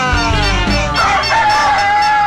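A rooster crowing: one long, drawn-out crow with a strong harmonic, wavering pitch that lasts about two seconds at steady loudness.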